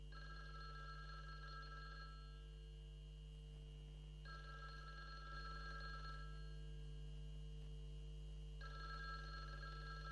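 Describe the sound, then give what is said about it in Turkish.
A telephone rings in repeated bright, trilling bursts of about two seconds each, separated by quiet gaps of similar length, over a steady low hum. About three ring bursts occur, with no voices. “Şol telefonu alasanız da! A telefon kıyırıp seslenip yarlı da!”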